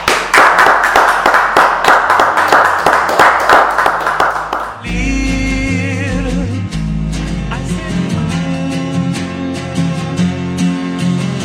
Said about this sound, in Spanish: Un aplauso para Marcela.